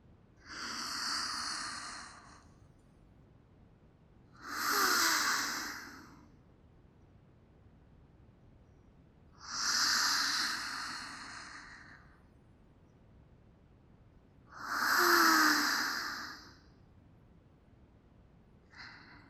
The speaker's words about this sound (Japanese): 私に合わせて深呼吸しながら、肩の力を抜いてください。